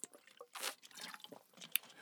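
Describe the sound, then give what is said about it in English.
Faint sounds of someone taking a drink of water: soft sips and wet swallowing noises, with a few small clicks and a sharper tick near the end. “Let me take a drink of water”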